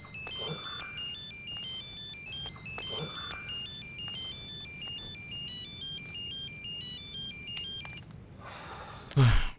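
A phone rings with a melodic electronic ringtone that repeats its bright pattern over a low background hiss, then gives way to a sudden loud rustling noise at the very end.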